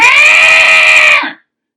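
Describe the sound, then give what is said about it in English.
Many cats wail together as an audience responding to a performance in a film scene, forming one loud, sustained, steady cry that holds for over a second and then cuts off abruptly. “Rather, 100 cats all wail,”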